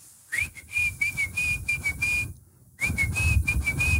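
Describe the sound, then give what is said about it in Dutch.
Whistled imitation of a pigeon fancier's daily call to his pigeons: two sustained high whistle phrases with a slight warble, separated by a short gap, over a low background rumble. “Maar elke duivenmelk had natuurlijk zijn eigen fluitje. Je fluit die duiven, want dat is het versdragende geluid. En je hebt een voerbakje in je hand met voer erin, met zaadkorrels. En dat rammel je mee. Ja. Het fluitje ging ongeveer zo, althans de mijne.”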